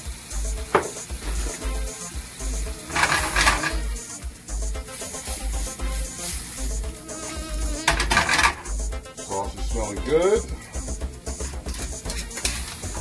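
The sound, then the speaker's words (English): Food simmering in a pan on the stove, turned down low with black pepper added, gives off a steady, loud sizzle, broken by a few clinks of stirring against the pan. “Turn down the fire a little bit, let that simmer.”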